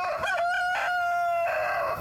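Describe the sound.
A rooster crows once at a rural home, a long, harmonically rich call that steps up in pitch and holds steady before trailing off, heard alone at moderate volume.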